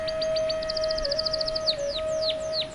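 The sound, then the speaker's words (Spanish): Canaries singing in a sunlit natural setting among flowers and trees: a rapid run of bright, high chirps and trills, then a few longer descending whistled notes, all over a steady low tone. “Nota la presencia alegre y melodiosa de los canarios, cantando en armonía con la naturaleza.”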